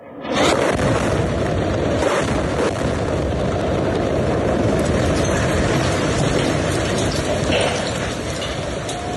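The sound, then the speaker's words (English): An explosion from Israeli missiles striking a home in Gaza City bursts in sharply, then becomes a loud, sustained roaring rumble that lasts for several seconds before easing slightly. “On Sunday, Israel fired 4 consecutive missiles at a home in Gaza City. Reporter Ahmed Kahil filmed the attack.”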